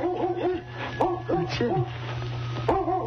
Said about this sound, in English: That's a dog back here in the woodshed. I wonder what kind of a dog.